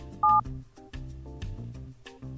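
A single telephone keypad tone sounds while accessing voicemail: a loud, steady, dual-pitched beep lasting a fraction of a second near the start, followed by quieter, muffled low sounds.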